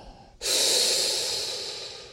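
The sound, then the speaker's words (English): One deep breath: a long, airy rush that starts abruptly and holds steady for nearly two seconds, easing off only slightly toward the end. No voices. “Let us sit back and take a deep breath.”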